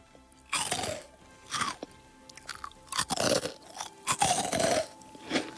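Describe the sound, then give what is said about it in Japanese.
Crunchy, light-textured food is bitten and chewed, several loud bursts of brittle crunching separated by short pauses, with no talk. “結構カリッとしたしっかりとした食感で、こう音も楽しいし、噛んでる時もガリリリリンガリリリリンみたいな感じで”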